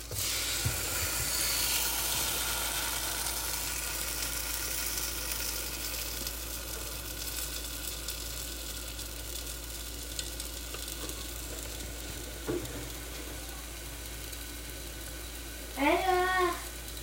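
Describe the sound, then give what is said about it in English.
Waffle batter sizzles inside a closed waffle iron, a soft, steady hiss and crackle that holds evenly throughout at low volume. “Let's close the waffle iron and let it cook for a bit.”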